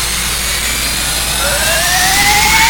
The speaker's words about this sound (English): fire up the engine. Maximum light. Let's get the feck out of here.